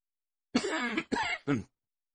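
A man coughs in three harsh, voiced bursts, the first longest and the last shortest, separated by short gaps and heard alone.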